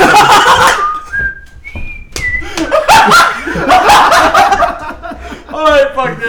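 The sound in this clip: A person whistles a few short notes of a TV theme tune, the pitch stepping upward, mixed in with lively talk and laughter.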